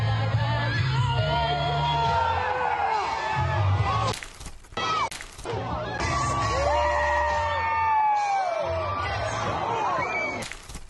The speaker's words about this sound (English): But when he hits the dirt, like it's a complete mangle. It's a complete show. But listen to the collective oh from the audience. It's absolutely beautiful.